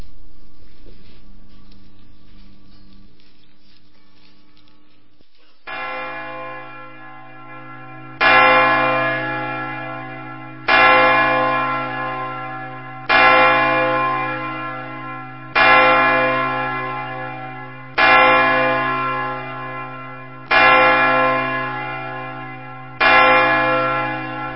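Church bells chime for New Year with loud, deep strikes at an even pace about two and a half seconds apart. Each strike rings out and slowly decays, after a softer lead-in tone and one lighter first stroke.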